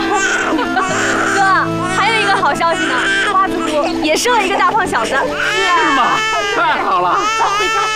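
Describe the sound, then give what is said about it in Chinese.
A baby cries loudly in wailing, wavering sobs that rise and fall almost without pause, with adult voices talking over the crying throughout. “别哭，别哭啊！”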